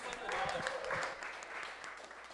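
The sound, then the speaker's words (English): Audience applause at an Awesome Music Foundation concert between songs, a steady wash of clapping that thins slightly as it continues. “Give it up, the Awesome Music Foundation audience.”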